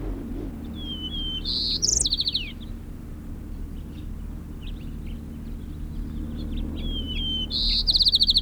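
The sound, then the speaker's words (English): A white-crowned sparrow sings two short phrases, each a thin whistle that breaks into a buzzy trill, separated by a long pause over a steady low background hum. “White crown sparrow”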